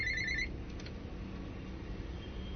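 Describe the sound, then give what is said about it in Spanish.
A telephone rings briefly with an incoming call, a short electronic trill at the very start that stops quickly and leaves only a steady low background hiss. “A ver, atiendo la llamada y continúo con la lectura.”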